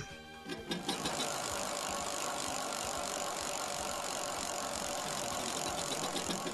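A prize wheel spun for a challenge sets off a rapid, steady ratcheting clatter of clicks. It starts abruptly and runs on evenly to the end.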